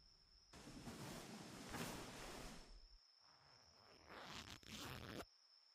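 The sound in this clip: A clothing zipper is pulled open in two long, rasping strokes with a short break between them. The sound is faint, and a thin steady whine runs behind it.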